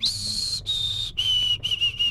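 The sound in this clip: A person whistles an imitation of a white-throated sparrow's song: five clear, pure whistled notes with short gaps, the first held higher and the rest lower and steady, the later ones shorter.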